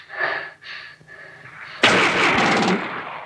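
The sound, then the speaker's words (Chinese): A single loud gunshot cracks out in a tense fight scene. It follows a few faint breathy vocal sounds and leaves a long noisy ring-out behind it. “尝尝奴才的子弹吧。”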